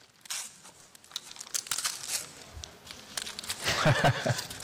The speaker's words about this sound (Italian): Esatto, è il libro che ti invito a scartare.